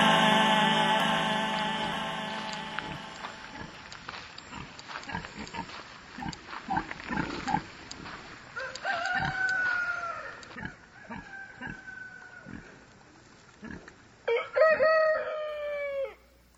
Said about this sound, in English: Ah, the sounds of Woodstock Farm Animal Sanctuary.